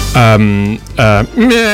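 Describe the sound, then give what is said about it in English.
A human voice imitates sheep bleating, giving three loud, wavering bleats separated by short pauses. “That was the sheep again, sorry.”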